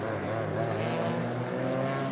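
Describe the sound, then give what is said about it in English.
Engine drone of a Lamborghini race car, number 44, completing a lap during a six-hour endurance race in Abu Dhabi; a loud, steady buzzing whine holds at an even pitch throughout. “Lamborghini, number 44, coming round to complete its lap.”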